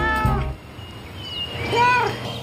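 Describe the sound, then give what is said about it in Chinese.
A pet cat meows twice, a short call at the start and a louder, drawn-out meow later, with quiet background between them. “没猫只对我这样说话，它和我有一种特殊的语言。”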